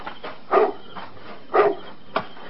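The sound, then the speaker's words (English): A dog barks outside at night near a house: a few short, sharp barks spaced about a second apart over a faint steady background. “Now, what are you barking at? There's nothing out there in the dark, stupid dog.”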